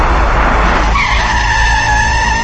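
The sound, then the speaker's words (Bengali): Tires squeal as police cars skid to a stop in front of a mansion. A loud, broad rushing noise gives way to a sustained, high-pitched squeal with steady tones. No voices are heard. “Gulzar ম্যানশনের সামনে এসে থামলো 3টি পুলিশের গাড়ি।”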